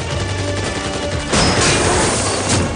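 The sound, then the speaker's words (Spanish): Machine gun fire in a film action scene, aimed at German soldiers manning a machine gun: a dense, continuous roar of rapid shots that grows louder partway through and stays heavy to the end. “Dispara contra unos soldados alemanes que manejan una ametralladora.”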